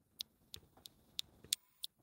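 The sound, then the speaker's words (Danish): A motion sensor device makes six short, sharp, high-pitched clicks at uneven intervals, faint and alone against a quiet background. “Det er jo sådan nogle kliklyd, og så sådan et godt pivelyd, jeg kan lige se, fordi den er sådan en bevægelsessensor.”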